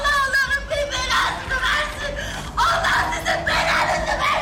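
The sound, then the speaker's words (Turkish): A person cries and wails in grief over a relative who was shot dead. The loud, high, drawn-out wailing is broken by sobbing catches and breaths, and it carries on without pause. “Ağladı, dakikalarca feryat etti.”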